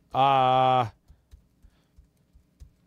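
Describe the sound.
Typing on a computer keyboard during a player-name search. A brief sustained hum of a voice comes first, then a handful of soft, evenly spaced key clicks.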